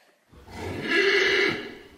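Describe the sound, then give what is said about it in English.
A horse neighs once, a loud, rough, harmonic call lasting about a second that swells and then fades, heard alone with no talk. “That's right, we're talking about horses.”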